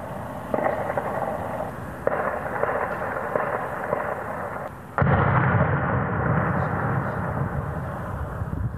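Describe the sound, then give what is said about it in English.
Hand grenade explosions in an attack in northern Stockholm rumble as a dense, continuous crackling roar, with a few sharp onsets cutting in and a louder, fuller stretch in the second half. “That was the sound of explosions in northern Stockholm last year, where two people were injured in what is believed to have been a hand grenade attack.”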